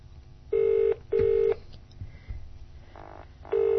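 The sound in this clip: Telephone keypad dialing tones as a number is entered to reach an answering service: four steady, even electronic beeps separated by short gaps, the last one cut off at the end.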